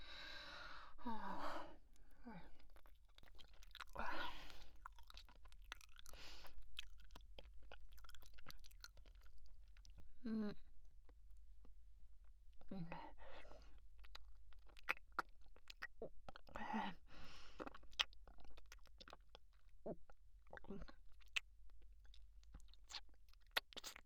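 Someone eating food and chewing: faint, intermittent chewing and mouth sounds with soft breaths between them.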